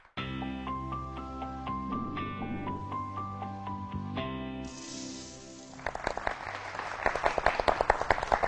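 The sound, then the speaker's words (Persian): Audience applause honoring two departing guests on a Persian-language talk show. The clapping begins about halfway through, over sustained tonal music, and builds into brisk, loud applause. “با هر دو عزیزمون خدافظی میکنیم یه دست خوشگل به افتخارشون بزنیم”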